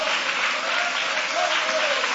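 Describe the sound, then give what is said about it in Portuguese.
A church audience applauding during a service, a continuous, even patter of many hands clapping together without pause for the whole short stretch. “Pode tomar o vosso assento, guarda a sua Bíblia com carinho e podem aplaudir a Deus com alegria.”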